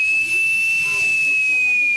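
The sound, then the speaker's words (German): Shrill emergency warning whistle of a breathing-apparatus air cylinder charged to 330 bar, holding one steady high pitch over a loud airy hiss for the whole stretch, with low talk underneath. “Ich drehe einmal die Flasche auf, dann kann ich gucken, wie viel hat die denn drauf. 330 Bar, perfekt. Dann muss man noch testen, ob die Notpfeife geht.”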